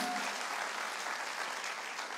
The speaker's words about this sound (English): Could we give a hand to those watching online and welcome them that couldn't be on campus with us today?